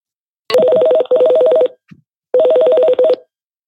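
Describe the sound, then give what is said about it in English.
Telephone tones sound as a call is placed to a prison: two pairs of loud, steady buzzing tone bursts split by a short pause, with a brief faint blip in the gap. “listen to us dial in. Here it goes.”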